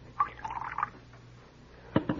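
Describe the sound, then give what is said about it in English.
A few drops of liquid poured from a bottle after its top is screwed: a faint, brief trickle, then quiet, then a few soft dripping taps at the end. “Screw the top. Just a few drops.”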